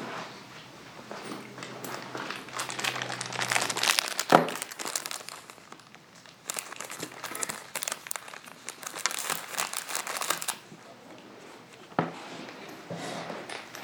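Paper is crumpled and handled in irregular bursts of crackling rustle. The sound grows dense and loud in places, then drops back to quieter crinkles and brief pauses.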